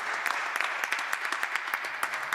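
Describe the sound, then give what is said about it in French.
Applause for a singer at a worship concert: many quick, sharp claps stack into a steady, moderately loud patter that runs the whole clip, with no talk over it. “On peut applaudir Rebecca qui nous a fait la joie de chanter avec nous.”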